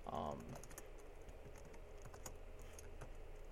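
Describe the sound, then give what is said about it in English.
Typing on a computer keyboard: a faint, steady run of many light clicking keystrokes, with a brief voice near the start. “I'm trying to find an article and type and talk at the same time.”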